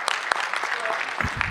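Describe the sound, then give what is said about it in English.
Audience applause, a brief, dense burst of clapping with a voice briefly audible near the end. “Yeah, and speaking of which, a round of applause.”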